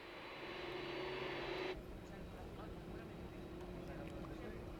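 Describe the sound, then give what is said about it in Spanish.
An airplane engine starting up at Tenerife Sur airport before a midnight departure: a loud, steady roaring drone with a bright hiss on top that cuts out abruptly partway through, leaving an even, continuous rumble. “Lo que van a ver es el momento en el que se ponía en marcha el avión que los transporta.”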